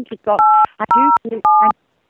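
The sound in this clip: Telephone keypad dialing tones: three steady, clear beeps of similar length are pressed in quick succession, with brief voice-like sounds between them.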